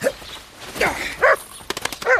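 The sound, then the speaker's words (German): A dog barks a few times in short, sharp, mid-pitched bursts, with soft scuffling noise in between. “Ja, ja, Hunde merken sowas. Warte, Wuschel, ich werf den Ball weg.”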